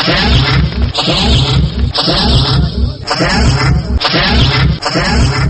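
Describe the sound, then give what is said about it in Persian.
Spaceship launch sound effect: loud hissing whooshes of rushing noise that surge in a series of roughly second-long pulses, one after another. “بله بله، شنوندگان عزیز همگی منتظر هستن که سفینه پرتاب شوه.”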